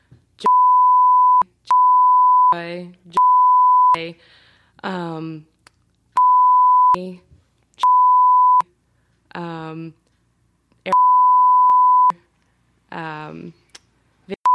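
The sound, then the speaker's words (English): Censor bleeps cut into speech: about six loud, steady, mid-pitched tones, each lasting around a second, alternating with short bursts of a talking voice, then another bleep starting right at the end. “We're gonna go beep beep beep beep beep beep beep beep.”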